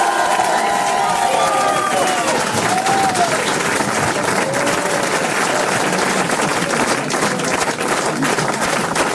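Loud, sustained applause and cheering from an audience welcoming Johnny Hallyday to a private concert in a large radio studio. The clapping is dense and steady from start to finish.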